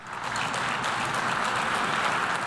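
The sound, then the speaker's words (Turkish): Applause from representatives of many countries after a president's speech at a United Nations conference: steady, dense clapping that holds at an even level throughout. “Cumhurbaşkanı birkaç kez birçok ülkenin temsilcisi tarafından alkış aldı.”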